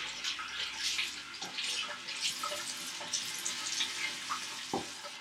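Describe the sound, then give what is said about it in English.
Running water pours from a tap as someone washes blood off their body. It makes a steady, fairly soft hiss with a few splashy bursts and no talking. “The next thing I remember, I was washing his blood off me.”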